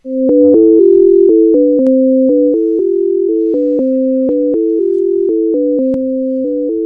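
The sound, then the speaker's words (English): Tones of the scale illusion play as two loud, pure, sustained pitches that step up and down against each other in a steady repeating pattern, with no voices. “How about the scale illusion?”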